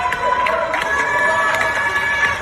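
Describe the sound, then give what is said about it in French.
Scattered clapping and cheers from people at their windows at 8 pm in France during the pandemic, applauding healthcare workers: irregular hand claps over a steady wash of crowd voices. “Comme tous les soirs à 20h, les Français applaudissent à leurs fenêtres pour soutenir le personnel soignant.”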